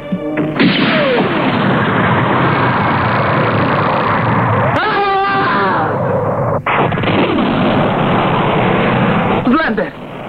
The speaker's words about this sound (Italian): Accidenti, l'ha disintegrato con un solo colpo. Quel mobile suit è meraviglioso